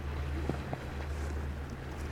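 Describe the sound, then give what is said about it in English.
A powerboat passes on the water, heard as a faint, steady low engine drone with a soft hiss over it. The drone holds level throughout, with a couple of tiny knocks. “there's that guy going by in a powerboat over there. There's a fishing boat coming down the way, about a mile away. I'm going to start hearing that pretty soon.”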